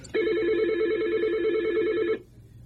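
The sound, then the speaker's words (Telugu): A telephone rings as a call is put through. One warbling electronic ring lasts about two seconds at a steady, fairly loud level, then cuts off into a quiet hum. “Yes we have the caller, నేను call connect చేస్తాను.”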